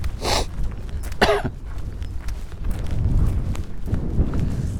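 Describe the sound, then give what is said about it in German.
Two short, harsh coughs burst out in quick succession, followed by a low, rumbling background noise. “Ich kann halt nichts für meinen Husten.”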